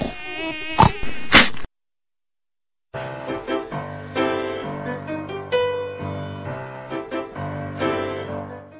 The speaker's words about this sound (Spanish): Es ese fastidioso mosquito que interrumpe los mejores placeres de la vida.